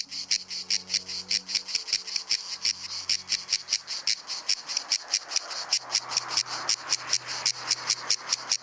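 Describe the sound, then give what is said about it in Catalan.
A cicada (Cicada orni) sings on a hot summer day in the woods and fields of Menorca: a long, regular train of loud, high-pitched buzzy pulses repeating at a steady, rapid rhythm. “La xigala és un insecte estival per excel·lència. De nom científic Cicada orni, ets l'únic representant del seu gènere i família a les Illes Balears.”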